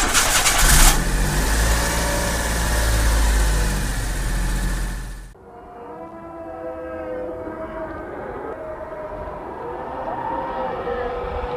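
A car engine cranks, starts and revs loudly for about five seconds, then cuts off abruptly as music begins.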